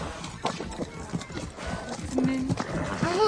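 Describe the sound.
Hoofbeats of horses with riders passing by, an irregular clopping that grows a little louder toward the end, where a horse briefly whinnies.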